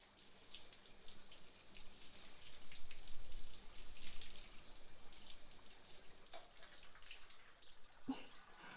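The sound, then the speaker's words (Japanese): Running water rinsing someone off during a bath, a faint, steady hiss of flowing water that continues for the whole stretch without pause. “よし、じゃあ流しまーす。”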